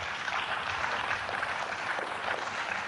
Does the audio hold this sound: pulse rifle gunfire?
no